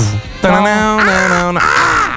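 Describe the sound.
A human voice imitates a crow's caw, giving a few harsh, nasal, drawn-out calls with strong harmonics and wavering pitch, each voiced sound following closely after the last.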